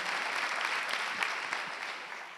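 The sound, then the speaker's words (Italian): Applause from a church audience at a Sunday gathering, a soft, even wash of clapping that continues steadily throughout without a clear break. “vogliamo fare un applauso e ringraziare anche papà”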